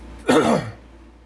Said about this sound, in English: Got something in my throat.